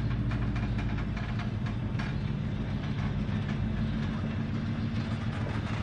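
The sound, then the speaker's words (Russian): A train pulls away from a station platform. Its low rumble of wheels and carriages runs continuous and fairly loud with a faint rhythmic clatter, and no voices are heard. “Поезд трогается, медленно набирает скорость.”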